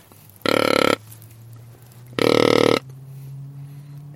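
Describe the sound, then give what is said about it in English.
A hand-held deer grunt call, its end cupped by hand to lengthen the sound, gives two long, deep, buzzy grunts, each about half a second, separated by a short pause. “And if I cup my hand on the end of my grunt call to make the grunt sound longer, this is really deep.”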